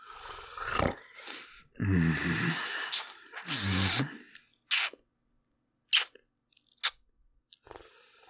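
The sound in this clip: Food is bitten and chewed, starting with a few noisy crunching stretches mixed with a voiced, groaning sound. Three sharp, isolated crunches then follow, separated by near silence.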